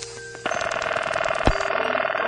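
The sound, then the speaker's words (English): A 1970s telephone bell rings in a steady metallic trill with a rapid, even rattle, joined by a short sharp click partway through. “Here's a collection of telephone sounds of the 1970s.”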